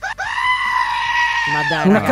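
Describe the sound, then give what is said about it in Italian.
Screaming goat: one long, loud, strained, human-like bleat held at a fairly steady pitch for well over a second, then breaking into rougher, lower cries near the end. “Una capra urlatrice.”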